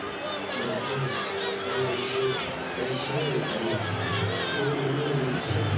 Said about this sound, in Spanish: El grito para con Di María. Sí. Los dos son de acá, de Rosario, de Argentina. El público de Central aprovechó para corear a Di María.